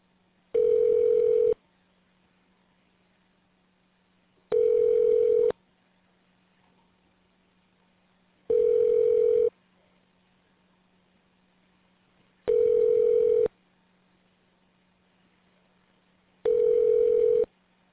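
Telephone ringback tones play while a call to an extension rings through: five evenly spaced buzzing rings, each about a second long with roughly three seconds of quiet between, over a faint low hum.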